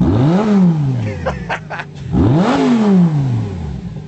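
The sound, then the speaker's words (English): A car engine revs hard twice, each time its pitch climbing quickly and then sliding back down, with a short stretch of idling and clatter between the two revs. “All right, let's hear it fire up. Got that nice. Give a little gas.”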